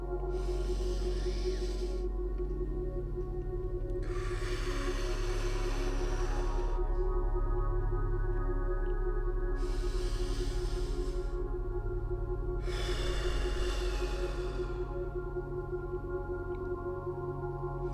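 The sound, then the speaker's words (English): Deep, slow breaths taken during a calming affirmation exercise come as four long, airy swells of breath noise with quiet gaps between them. A steady low tonal drone continues softly underneath. “A couple deep breaths.”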